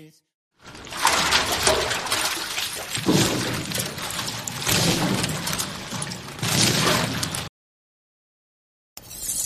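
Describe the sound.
Dinner being cooked at home: a long, dense wash of running water mixed with clattering dishes, which cuts off into silence before a brief burst of noise returns at the end.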